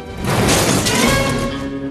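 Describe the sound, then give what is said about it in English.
A car being crushed in a scrapyard car crusher, a loud, sustained crunching and grinding of metal with ringing metallic tones, swelling early and easing slightly toward the end. “He watches as a car is picked up and dumped on the back of a truck, and another is put through a crusher. A very flat car comes out of the other side.”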